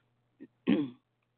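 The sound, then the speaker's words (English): Throat clearing: a small soft catch, then a longer rough, raspy burst, heard alone against quiet background hum. “I'm sorry I'm clearing my throat in your ear.”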